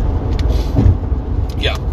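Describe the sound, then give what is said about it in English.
Car on the road on the way to work, a constant low engine and road hum filling the interior, with a voice heard talking over it. “so I'm still on my way to work. That's a thing. Uh, I was actually driving for about 20 minutes before uh, I started this podcast.”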